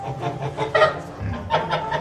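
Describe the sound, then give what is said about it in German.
Agitated geese being herded make harsh, cackling honks in a few loud bursts over a low, rustling background. “Jetzt die zwei Gänse, das sind die zwei Gänse. Die sind aufgewühlt.”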